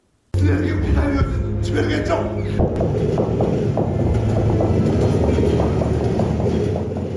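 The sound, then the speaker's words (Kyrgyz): Steady, loud rumble of trains running from west to east, with continuous rattling and rhythmic wagon clicks. It starts abruptly and holds at a constant level to the end. “Батыштан чыгышка, чыгыштан батышка тынбай каттаган поезддердин үнү коштоп”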